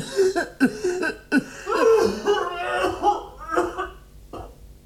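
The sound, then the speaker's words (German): Short, harsh coughs from a person in a stage play, mixed with voiced throat sounds and chuckle-like noises, arriving in a few uneven bursts at moderate loudness. “Ich huste ebenfalls und werfe ängstliche Blicke. Hustete hier wer? Ich tat es”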